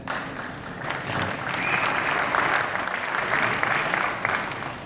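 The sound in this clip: Audience applause welcomes a panel of real estate developers, a dense wash of clapping that swells after the first second and then holds steady, moderately faint, with a few sharper claps poking through.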